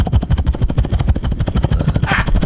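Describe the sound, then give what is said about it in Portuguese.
A voice imitates a helicopter with a rapid, steady chopping rhythm of many low pulses. A brief hiss comes near the end. “Você imitou o helicóptero.”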